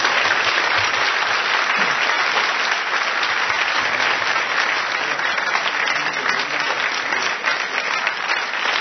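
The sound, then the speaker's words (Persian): Applause for a woman, a dense and steady clapping that stays loud and even from start to finish with no voices standing out. “یک کف خیلی زیبا برای خانم بزن.”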